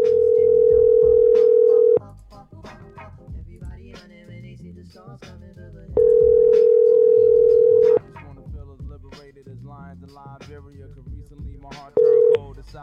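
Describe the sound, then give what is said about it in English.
A telephone ringing tone sounds as a steady, flat electronic tone lasting about two seconds, repeating after long pauses in three bursts with the last cut short, and quieter muffled sound fills the gaps. “See, and the ringing's back now, so it's definitely not my problem.”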